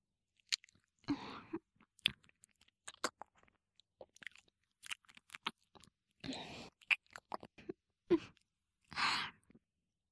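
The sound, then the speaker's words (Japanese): Chewing and biting: many crisp, crunchy bites and wet mouth sounds in irregular bursts separated by silence, soft to moderately loud. “そして、噛む。噛みつぶす。奥歯がゆっくりあなたを噛みつぶす。”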